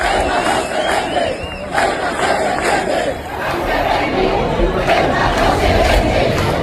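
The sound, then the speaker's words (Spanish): A street demonstration in Almería in solidarity with Ceuta fills the air with loud crowd chanting and shouting, a continuous roar of many voices that dips briefly midway before swelling again. “Cientos de miles de andaluces han echado a las calles esta tarde para mostrar su solidaridad con Ceuta. Estos eran sonidos de Almería.”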